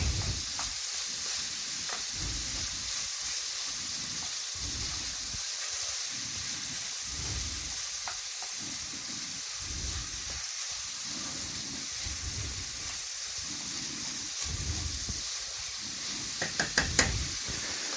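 Food sizzles as it fries in a pan while a wooden spoon stirs it and presses it apart. A faint, steady hiss runs under soft, repeated scraping knocks, with a few sharper clicks near the end.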